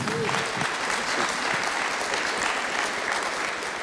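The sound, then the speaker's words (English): Audience applause welcomes a guest speaker at a Missions Sunday gathering, a dense, steady clapping that holds at an even level for several seconds. “Why don't you guys give him a warm welcome?”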